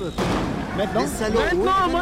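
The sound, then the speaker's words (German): Police fire live ammunition at civilians during unrest: a few sharp cracking shots ring out amid shouting, agitated voices. “Die Polizei schießt mit scharfer Munition auf die Bevölkerung.”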